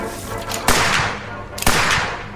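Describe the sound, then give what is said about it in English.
Gunfire opens on a winged creature during a fight: two sharp, loud shots land about a second apart, each cutting through a dense, noisy background. “As soon as he positively sees Walter, go ahead and open fire on it, Detective. Might as well not stretch our luck. Opening fire on it now.”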